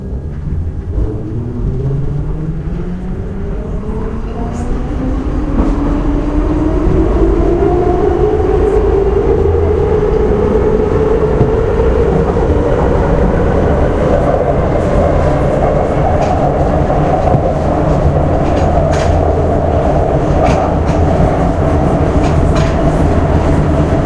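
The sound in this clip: A Budapest metro train moves between stations with a steady, loud rumble and rattling wheels. A motor whine climbs in pitch over the first several seconds, then holds level to the end.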